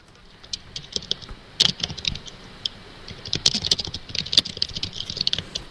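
Typing on a computer keyboard: many quick, irregular key clicks of varying loudness, with a few sharper, louder strikes, over a low steady hiss.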